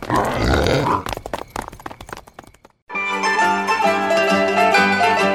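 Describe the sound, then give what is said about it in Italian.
Wild boar grunting: a run of rough, rapid snorts and grunts for almost three seconds. After a brief silence, a sustained harmonic sound follows. “Ora sento come dei grugniti. Oh, oh, guarda! Un cinghiale!”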